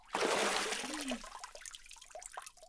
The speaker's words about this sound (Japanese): もうちょっとこっちの方にもかけますね。 それでは頭を洗わせていただきます。お湯をかけますので頭を深く下げていてくださいね。